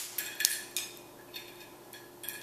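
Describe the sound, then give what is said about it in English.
Dried pork rind pellets, small bits of skin, placed onto a microwave-safe plate, giving a few light, scattered clicks and rattles against a quiet background. “These are bits of pork rind, skin, and you put it on a microwave-safe plate.”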